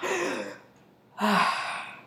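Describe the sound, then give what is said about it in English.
Someone takes a deep breath, heard as two long, breathy rushes of air with a quiet pause between them. The second is louder, and no words are spoken. “let's take a deep, big, deep breath.”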